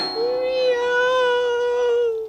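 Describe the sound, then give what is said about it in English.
A human voice imitates a cat meowing in one long, drawn-out nasal call of about two seconds. The pitch holds mostly level with a slight wavering rise in the middle, and no other sound accompanies it. “Meow, meow, watch out, meow. Meow!”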